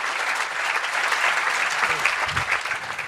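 Audience applause at the Greenbelt festival: steady, dense clapping that holds at an even level throughout, with no voices over it.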